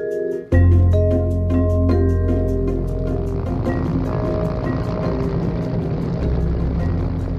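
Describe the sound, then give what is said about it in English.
A military helicopter flies over the Red Sea, about to land on the deck of a massive cargo ship. Its loud, steady rotor chop and low droning engine start abruptly and continue throughout. “That's a helicopter you're hearing. It's a video taken from a camera mounted on a military chopper. And that chopper's flying over the Red Sea”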